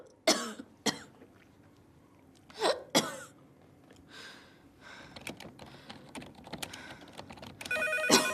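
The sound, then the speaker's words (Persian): A telephone rings near the end in a bright, buzzing electronic tone in a film scene. Before it come several sharp coughs and faint scattered clicks like typing, all fairly quiet. “عینکش را از چشم بر می دارد و تلفن را جواب می دهد.”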